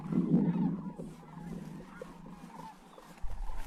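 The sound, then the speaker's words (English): Rocky Mountain greater sandhill cranes call at spring wetlands where they gather on migration. Rolling, rattling bugles are loudest at the start, drop to softer murmuring calls, then swell again near the end. “That noise is pretty cool. More than 20,000 of this subpopulation of Rocky Mountain Greater Sandhill Cranes come to the valley each spring”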